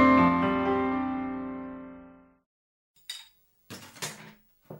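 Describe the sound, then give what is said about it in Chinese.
Bowls and chopsticks being cleared away after a meal: after a long ringing tone fades to silence, a few sharp clinks and clatters of tableware follow in separate bursts. “吃完饭，阿东去收拾碗筷”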